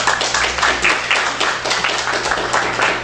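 Dense, even audience applause welcoming author David Vann to a bookstore reading from his novel Aquarium. The clapping stays steady and full throughout.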